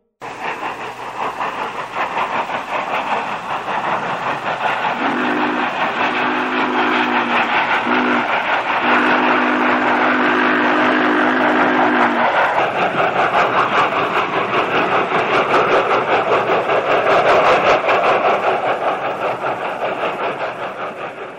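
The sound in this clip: Train slowly rolling away, a steady low rumble and clatter that stays loud throughout, with a low tonal whistle sounding in short bursts and a longer stretch midway.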